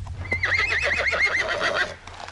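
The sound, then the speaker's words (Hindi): A tired horse gives a loud, long whinny whose pitch quavers rapidly up and down for over a second. It stands alone over a low rumble. “इन थके हुए घोड़ों से तुम शाम जाना चाहते हो?”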